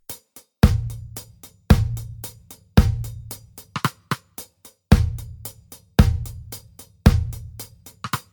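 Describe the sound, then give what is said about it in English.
A drum beat with snare drum hits on beats 2 and 4 plays alone, combining booming kicks, a steady stream of ticking hi-hats and sharp snare cracks in a regular groove. “Here's how the drum beat would sound like with these snare drum hits.”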